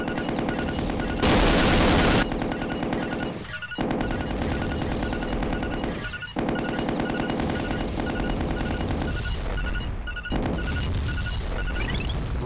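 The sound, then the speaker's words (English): Machine gun and artillery fire in a video game: a dense, continuous clatter of rapid shots with a louder burst of noise early on, keeping up steadily to the end. “Fly, select. Got him. Try it again. Artillery. Machine gun.”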